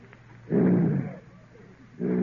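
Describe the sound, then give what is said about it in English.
A man imitates a lion's roar with his voice, giving two loud, rough, growling bursts: the first lasts under a second, and the second is cut off at the end. “Oh, a lion. Quiet, folks. One lion!”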